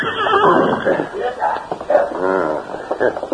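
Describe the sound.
A horse neighs as its rider urges it off a trail and behind a large boulder. One drawn-out, quavering whinny stands out midway through a dense, busy mix of sound.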